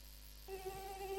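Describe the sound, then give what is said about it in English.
Mosquito buzzing: a thin, steady, high whine starts about a third of the way in and holds an even pitch to the end, alone with no voices. “So when I need to sleep and mosquitoes and cockroaches are disturbing me, chale, I can't stand it.”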